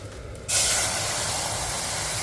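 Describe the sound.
Water poured into a hot pan of golden-browned onion, spring onion and ginger sets off a sudden, loud hiss. The broad sizzling rush starts abruptly and holds steady until the end.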